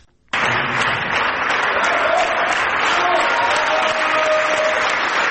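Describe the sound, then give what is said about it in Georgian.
An enthusiastic ovation from a ballet audience bursts in after a moment of quiet and holds at a steady, dense level of clapping. A few faint voices briefly rise above it. “ბალეტის მოყვარულებს ძალიან უყვართ ბრავოს ხმამაღალი ძახილი, მაგრამ ცდებით თუ გონიათ, რომ ეს ოვაციები ოპერის თეატრში ახალი ბალეტის პრემიერაზე ჩავწერეთ.”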